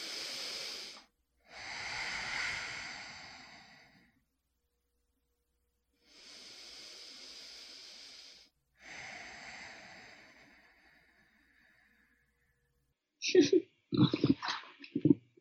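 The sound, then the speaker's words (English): Four long, hissing breaths during a medical scan, each lasting a few seconds and separated by short silences. A voice speaks briefly at the end. “Why don't you breathe?”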